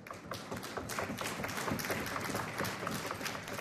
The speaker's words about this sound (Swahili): Nashukuru sana kwa makofi na shukrani wageni wote mliofika hapa.